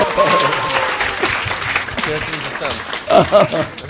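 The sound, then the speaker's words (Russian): Audience applause at a group event, a crowd of hands clapping with people talking over and through it, the mix swelling again briefly near the end. “Аплодисменты Сурье.”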